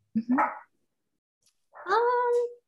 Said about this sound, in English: My dogs are barking.